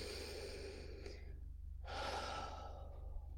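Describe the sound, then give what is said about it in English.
Slow, deep human breath during a guided affirmation exercise: two soft, airy breath sounds, the second fuller and longer, quiet and alone with no talk. “Nice big deep breath.”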